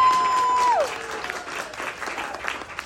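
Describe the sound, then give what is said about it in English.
An audience claps to welcome the cast of an improv comedy show. A brief tone slides downward in pitch and fades, then loud, steady clapping continues to the end. “As we go through, we're going to go ahead and make a really big clap. We're going to go ahead and start off by welcoming our cast of the Winwood Comedy Co.”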